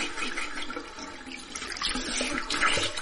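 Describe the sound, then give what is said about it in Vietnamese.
A tap turned on at a bathroom sink to run water for brushing teeth: a steady, fairly faint hiss and splash of flowing water that grows a little stronger toward the end. “Tiếp đó vặn vòi, hứng nước đánh răng.”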